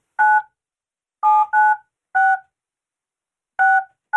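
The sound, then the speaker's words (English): Touch-tone telephone keypad dialing: six clear dual-tone beeps in an uneven rhythm, the last one cut off, heard alone with silence between presses. “I'm dialing 9 first.”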